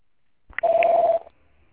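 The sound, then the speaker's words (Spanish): A voicemail system's beep tone sounds after the greeting: a single steady, mid-pitched electronic tone lasting about half a second, clear and alone with no talk. “Por favor, deje un mensaje en la casilla de voz después de la señal.”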